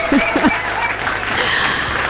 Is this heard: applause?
yes